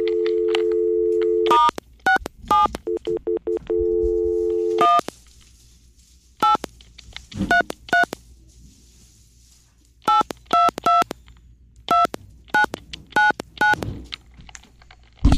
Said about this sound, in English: If you enjoy ASMR, that was dialing.